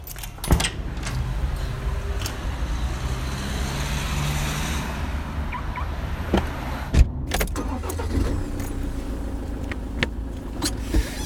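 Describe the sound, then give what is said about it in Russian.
A car engine starting and running: a steady low rumble continues throughout, with a few sharp clicks and knocks. One knock near the middle is louder. “Я завел авто”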